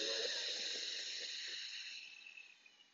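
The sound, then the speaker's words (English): A deep inhalation through the nose, heard alone as a steady airy hiss that holds for about a second and a half, then slowly thins and fades away. “Take a big breath. Inhale through your nose.”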